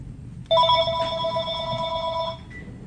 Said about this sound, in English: Oops, that's my phone. Sorry.